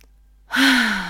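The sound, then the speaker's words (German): A deep breath: after half a second of silence comes a single loud, breathy exhale like a sigh, with a faint voiced hum slowly sinking in pitch as it fades. “einmal tief ein- und ausgeatmet”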